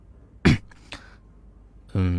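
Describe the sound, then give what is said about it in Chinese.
A dry cough acted by a voice: one sharp burst, then a lighter second one, before talking resumes. “魏谦顿时干咳了一声，有些尴尬地说”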